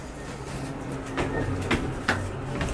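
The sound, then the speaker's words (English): Elevator doors and machinery: a low, continuous mechanical hum broken by a few short clunks and rattles, with no talk. “Do you want to use the elevator or the stairs? Let's use the elevator.”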